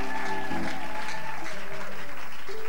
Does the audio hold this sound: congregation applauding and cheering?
yes

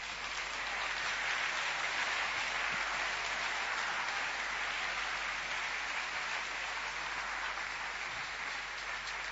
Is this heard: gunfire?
no

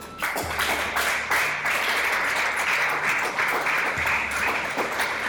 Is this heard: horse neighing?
no

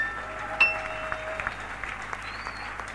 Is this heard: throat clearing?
no

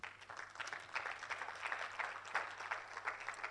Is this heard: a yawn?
no

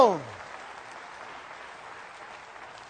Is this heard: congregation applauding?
yes

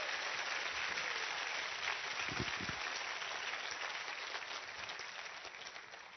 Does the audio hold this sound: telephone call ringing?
no

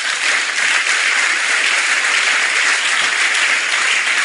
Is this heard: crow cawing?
no

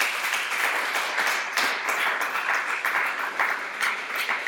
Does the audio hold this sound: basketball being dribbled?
no

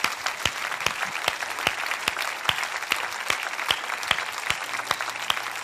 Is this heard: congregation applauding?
yes

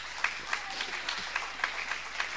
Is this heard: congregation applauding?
yes

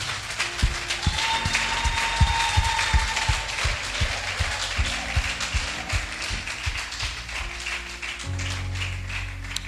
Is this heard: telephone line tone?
no

